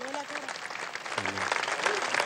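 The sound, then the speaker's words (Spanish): Applause from an audience at a public speech: steady, dense clapping throughout, with a voice speaking over it at the start and again midway. “un aplauso a Aristóbulo”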